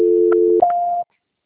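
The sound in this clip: A telephone call transfer tone: a steady low electronic tone holds for about half a second, then switches to a higher steady tone that runs briefly before cutting off into silence.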